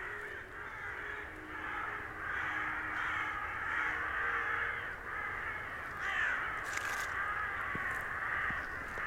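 Many crows caw beside a small asphalt road lined with fir forest. Their harsh, overlapping calls form a dense, steady chorus that holds an even loudness the whole time.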